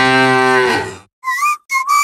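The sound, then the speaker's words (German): A cow's moo comes from a promotional mooing Müllermilch milk bottle: one long, loud, low harmonic moo, then a few short bursts of high whistled tones after a brief pause. “Finde eine der noch 4 verbleibenden Muhenden Müllermilchflaschen und gewinne 50.000 Euro.”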